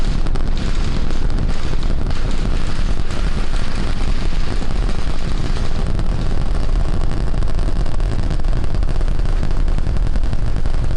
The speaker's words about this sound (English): Like this launch is going off without a hitch. The first ever launch into orbit of SpaceX's newest rocket.